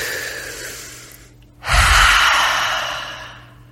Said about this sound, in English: And today we're just going to take a deep breath. We're just going to relax for a second.